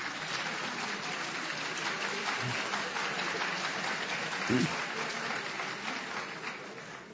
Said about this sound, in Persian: خانم‌ها دست می‌زنن، آقایون با کراهت یواشکی.